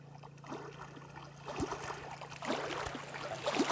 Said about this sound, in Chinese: 我猜白沙湖的海浪声、水声， 完全正确，完全正确，完全正确。